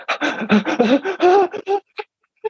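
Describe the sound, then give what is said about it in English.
A person's voice imitates a panicked panic-attack breath, with a rapid, loud string of ragged voiced gasps and pants, followed by two short, isolated breaths after a brief pause. “freaked out panic attack breath”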